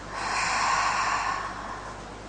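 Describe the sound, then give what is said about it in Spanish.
A long breath exhaled through the mouth during a guided breathing exercise, a soft airy rush that swells, then slowly tapers and lingers faintly to the end. “Inhala y exhala por la boca.”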